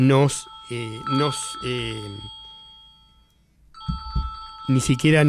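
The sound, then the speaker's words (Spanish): A mobile phone ringtone of steady electronic tones plays on and off under ongoing speech. It pauses briefly midway, then resumes more brightly near the end. “Disculpen que justo sonó el celular, que cometí el error, debe ser el estado febril, pero cometí el error de no silenciarlo.”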